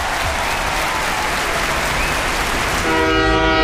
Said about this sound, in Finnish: Seuraavana aamuna me matkustetaan Teresan kanssa junalla Napoliin.